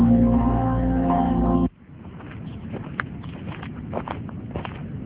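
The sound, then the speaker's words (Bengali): Tired, heavy footsteps shuffle across a wooden verandah as someone drags something heavy. Soft scuffs and dull thuds follow after a sustained musical chord cuts off abruptly. “কাঠের বারান্দায় কেউ যেন ভারী কিছু টেনে নিয়ে যাচ্ছে, যে টানছে তার পায়ের আওয়াজ বলে দিচ্ছে সে ভীষণ ক্লান্ত এবং পরিশ্রান্ত।”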